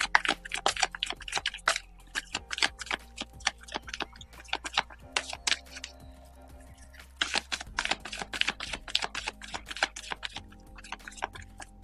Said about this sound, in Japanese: カードシャッフルします。少々お待ちください。